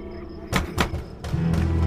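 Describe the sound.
Two hard knocks on a door in a radio drama, heavy wooden thuds landing close together, each ringing out briefly before dying away.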